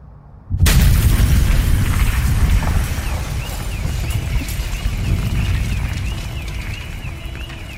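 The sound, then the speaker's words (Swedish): Reconstructed bomb explosion sound effect: a sudden loud boom bursts in, then a long, rough, rumbling and crackling tail slowly fades over several seconds. “Och det var han som skapade ljudet där han rekonstruerade bomben i avsnitt 1.”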